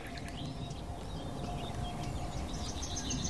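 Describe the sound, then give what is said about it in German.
Faint nightingale song drifts in the background: thin, babbling high warbles and chirps sit over a steady low rumble of noise. “Und immer wieder so plätschernder Gesang im Hintergrund. Einmal ist die Nachtigall,”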